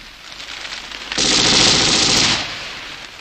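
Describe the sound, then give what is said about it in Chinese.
A machine gun fires a sustained burst from a mosque bell tower in Sarajevo: a loud, dense stream of rapid shots lasting just over a second, rising sharply out of a quieter background and then dropping away. “埋伏在清真寺钟楼上的德国兵一听比肖夫上尉的口哨声，立刻用机枪向谢德扫射。”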